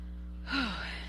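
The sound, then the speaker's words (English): A breath is drawn while someone is reading aloud, a short gasp with a brief voiced sigh falling in pitch. It follows a quiet pause over a steady low hum. “I need to take a breath.”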